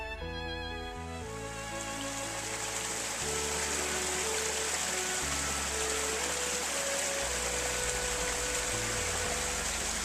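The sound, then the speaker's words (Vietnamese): Rushing water of a low waterfall spreads like a white veil over a rugged hillside dotted with low shrubs, a soft, constant hiss running beneath quiet background music. “Thác không cao, nhưng màn nước giống như một miếng voanh trắng phủ kín sườn đồi lởm chởm những bụi cây thấp.”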